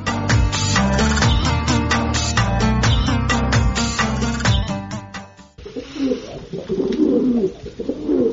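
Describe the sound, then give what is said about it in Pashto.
Pigeons of the Baghdadi and Shirazi breeds, along with tumbler pigeons, coo in low, warbling tones. The sound is loud and dense throughout, shifting partway into rougher, softer cooing. “زما بغداد یو، شیراز یو، او لټ پټی کوتر.”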